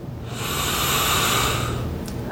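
A single long, deep breath taken during a guided tapping exercise for releasing stress: a steady, fairly loud, breathy hiss that holds for about two seconds, with no talking.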